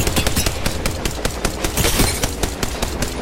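Gunfire in a video game shootout, dense rapid bursts of automatic shots hammering almost without pause, loud and unbroken across the whole stretch.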